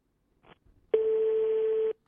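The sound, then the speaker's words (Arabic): A call placed to a mobile phone rings out as one steady, even-pitched tone lasting about a second, preceded by a few faint, brief dialing sounds. “إذن هذا الهاتف المحمول عميد كلية بن زهر. أتمنى يكون جواب. ننتظر.”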